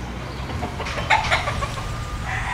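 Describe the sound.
Fighting roosters cluck at a house: a few short, bright calls rise near the middle over a steady low hum, with softer bird sounds around them.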